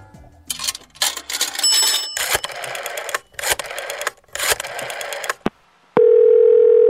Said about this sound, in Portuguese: lá do Canadá, e a gente vai ligar pra ele agora